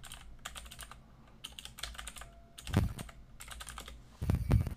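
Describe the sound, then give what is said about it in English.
Typing on a computer keyboard: quick bursts of light key clicks with short pauses, and two louder, heavier clacking runs near the middle and the end. “If I type that wrong, it's okay. I was like, if I type that wrong, there's some shit gonna come up here.”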